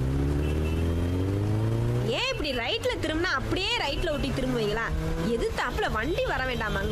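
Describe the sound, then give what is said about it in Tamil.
A motor scooter with a helmeted rider pulls away, its engine drone rising in pitch as it accelerates, then holding steady while people talk over it. “நீ ஏறி உட்காரு, இந்த வண்டி எப்படி போகுதுன்னு மட்டும் பாரு.”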